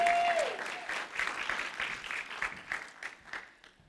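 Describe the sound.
An audience applauds to welcome a speaker onto the church stage. The clapping is steady and fairly loud, then thins and fades toward the end.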